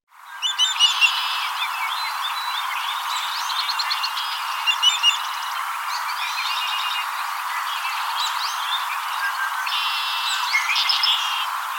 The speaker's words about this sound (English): Savannah sparrow.